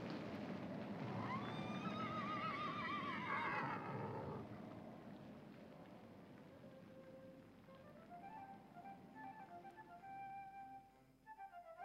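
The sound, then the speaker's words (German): Horses from a small herd driven along a road neigh, a long wavering whinny filling the first few seconds, then a quieter neigh rising again later, with no voices. “mit einer Koppel Pferde des Weges ziehen und... Pferde? Wo sind sie? Hier.”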